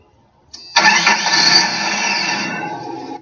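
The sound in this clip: A car engine starts: a short crank and cough, then it catches and settles into a steady, fairly loud running hum that holds for several seconds, with no voices.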